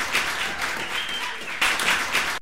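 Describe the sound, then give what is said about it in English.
Canned applause plays from a sound effect machine, a wash of clapping that swells in bursts, dips in the middle, then surges back up before cutting off abruptly. “Folks, we got into a strange feedback loop where this is only playing applause out of this one machine. It's the applause machine now instead of my theme song machine.”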